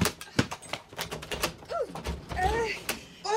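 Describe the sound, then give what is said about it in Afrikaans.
A door is opened and handled, giving many sharp clicks, knocks and rattles in quick, irregular succession, with a voice briefly heard among them. “Eh, juffrou, wees versigtig met daai deur. Weet niemand hoe om met 'n deur te werk nie. Laat ek laat ek dit net doen.”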